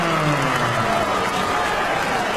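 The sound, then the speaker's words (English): Crowd cheering and applauding after a split-decision boxing bout won by the Australian fighter in the blue corner. The sound is a continuous, loud wash of clapping and crowd roar that holds steady from start to end. “Cheers all around for Jacob Kassar's performance there”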